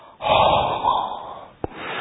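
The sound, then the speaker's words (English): A single long, loud inhale through the nose, drawn steadily for over a second as part of a counted breathing exercise, with no talk over it. “Each time when you inhale from the nose, we count.”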